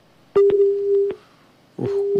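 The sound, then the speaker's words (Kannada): A phone line tone sounds after a call is cut off: a steady, mid-pitched beep sounds twice with a short silent gap between, and faint clicks come at the onset of each. “ಯಾಕೋ ಕರೆ cut ಆಯ್ತು.”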